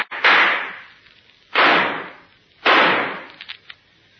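Three sharp gunshots ring out in a radio drama, each hitting hard and fading over about a second, spaced unevenly with a longer pause after the first.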